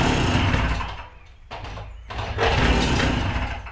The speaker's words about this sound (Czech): Bude trvat, než to chytne, protože ono to... Já to tady můžu startovat jenom jednou nohou.